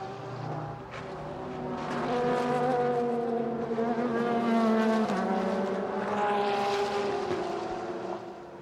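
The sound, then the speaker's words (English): Sports racing cars lapping Laguna Seca during a WeatherTech Sports Car Championship practice session: loud, continuous engine roar whose pitch climbs and drops as cars accelerate and brake, with several engine notes overlapping and no voices. “And still with 27, only 27 of the 38 cars out on track.”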